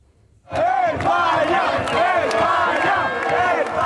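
Spanish football fans in Madrid celebrate a World Cup win over Belgium. After a short quiet moment, a loud chanting and singing crowd bursts in and keeps going without a break.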